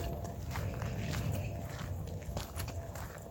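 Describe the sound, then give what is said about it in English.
Footsteps on a morning walk, a steady run of soft, regular steps over continuous background hiss, with no talking. “It's been a nice little morning walk.”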